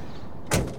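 A single solid thud of a car door on an '84 DeSoto as someone gets into the car, a short dull impact over a steady background hum.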